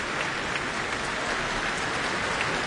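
Concert audience applauding after a piano encore, a dense, even wash of many hands clapping that holds steady throughout, with no talk over it.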